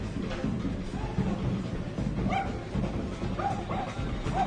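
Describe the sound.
An excited dog yips and barks: a few short, high yelps and whimpering cries rise over a steady, noisy background, with some faint voice-like sound underneath.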